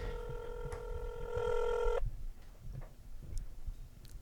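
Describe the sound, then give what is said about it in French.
A ringback tone on an outgoing phone call, a single steady buzzing ring lasting about two seconds before cutting off, followed by quiet background noise. “Ça appelle. J'espère qu'il va répondre.”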